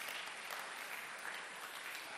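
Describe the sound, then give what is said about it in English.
An audience at a sermon applauds with continuous, thick clapping at a constant, moderate level, with no individual claps standing out. “One more time, let's clap for her.”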